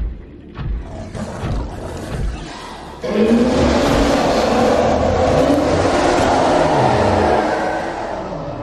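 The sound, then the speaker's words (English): A huge hostile Reaper Leviathan creature from a video game roars: after a few seconds of quieter rumbling, a loud, deep, sustained roar swells in and holds for several seconds before easing slightly at the end. “That is the sound of the Reaper Leviathan. There's about 25 of them in the game.”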